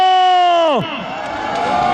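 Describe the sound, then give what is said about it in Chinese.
Whole-audience applause and cheering at the closing of a sports event. A sustained harmonic tone glides down and cuts out, then crowd noise swells and builds steadily to the end. “全场的掌声 欢呼声”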